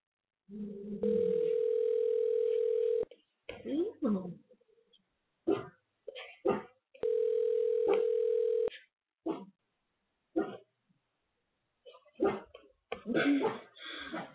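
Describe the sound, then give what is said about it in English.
A telephone call ringing out: two long, steady, mid-pitched ringing tones, each lasting about two seconds, with a pause between them. A voice talks briefly between the tones and again after them. “So, yeah, so I'm calling now.”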